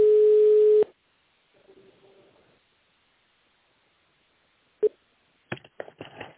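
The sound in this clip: Telephone ringing tone heard while a call is forwarded to a call center: one loud, steady, low tone, then a fainter tone, followed after a pause by a sharp click and a few short rustling bursts.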